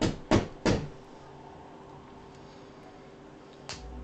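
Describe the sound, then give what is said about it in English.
A door opening at the top of wooden steps: a few sharp clunks in quick succession, then a stretch of near quiet and one softer click near the end. “And he opens the door and steps inside.”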